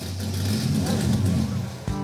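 A powerful car engine of about 700 horsepower revs with a loud, dense, roaring rumble that holds strong and steady for the whole two seconds.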